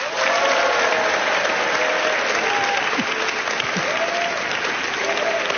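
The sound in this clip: An audience applauds in the Carré Neuf theatre hall with dense, steady clapping from a large crowd that keeps an even loudness for the whole stretch.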